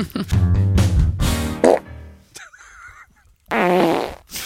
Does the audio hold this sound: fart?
yes

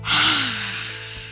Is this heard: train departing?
no

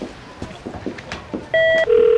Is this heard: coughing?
no

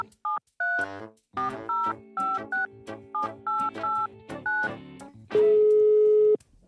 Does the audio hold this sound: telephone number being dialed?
yes

